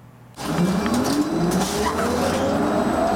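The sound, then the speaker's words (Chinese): A Foxconn electric car accelerates. Its motor whine climbs steadily in pitch over a loud, rushing road and tyre noise that starts suddenly and stays strong. “踩下油门加速行驶，续航力超过四百公里。”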